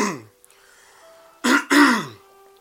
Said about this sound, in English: Man, I need to clear my throat.